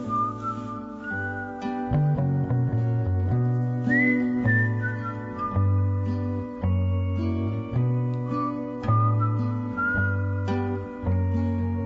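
A long whistled melody plays, its clear, high tones sliding and wavering between notes over sustained lower tones, phrase after phrase at an even loudness.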